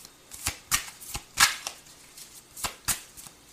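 Tarot cards shuffled for a reading give a series of brief, crisp riffling bursts at irregular intervals, soft and papery, with no talking.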